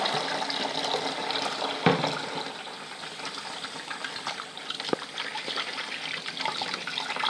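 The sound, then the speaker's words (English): Hands being washed under a running tap with antibacterial soap: a steady, soft rush and trickle of water. Two brief clicks break through the faint, continuous flow. “Let's wash my hands. A bit antibacterial soap.”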